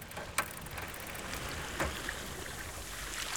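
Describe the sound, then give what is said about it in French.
Small sea waves lap at the shore in a soft, continuous watery wash, broken by a few brief splashy laps. “La mer était grande jusqu'au ciel. Quand Malo s'est approché, la mer est venue lui lécher les pieds. Elle faisait des petits clapotis et elle l'a gentiment chatouillé.”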